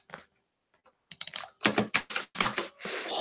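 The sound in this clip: Typing on a computer keyboard, with a few faint clicks at first, then a pause, then rapid bursts of many crisp keystrokes in uneven clusters.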